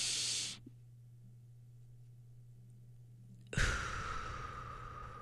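A slow exhale through the mouth during a 4-7-8 breathing exercise for sleep: a brief airy breath, a quiet pause over a low steady hum, then a long, soft, even rush of breath to the end.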